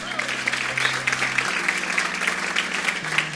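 An audience applauds to welcome a guest onto a show, a dense, steady wash of clapping that stays even and sustained from start to finish.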